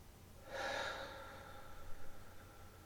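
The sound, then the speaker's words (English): Slow breathing, drawn in through the nose and let out through the mouth. One soft, breathy rush swells and fades, followed by faint, quieter breath noise. The sound is heard alone. “2 sips of air in through your nose, and then everything out through your mouth.”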